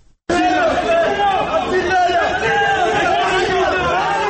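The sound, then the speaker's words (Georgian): Loud crowd shouting insults at opposition party representatives in several regions, many voices yelling together in a dense, continuous din. “ასე შეურაცხყოფელი შეძახილებით, კვერცხების როლითა და ფიზიკური ანგარიშსწორების მუქარით დახვდნენ რამდენიმე რეგიონში ოპოზიციური პარტიების წარმომადგენლებს.”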